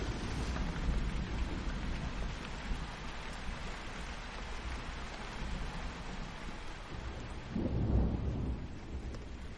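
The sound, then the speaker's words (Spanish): Torrential rain pours down at night in a steady, dense hiss that never lets up, joined near the end by a low rumble of thunder. “Cae una lluvia torrencial.”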